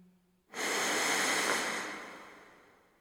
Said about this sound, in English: Take a long, slow, deep breath. Inhale.